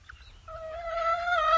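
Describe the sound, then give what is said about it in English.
A hen calls her chicks with a brooding call: one drawn-out tonal note with bright harmonics that rises slightly in pitch and grows louder toward the end, heard alone without talk. “Hath a brooding call, by which she calleth her chickens to come under her wing.”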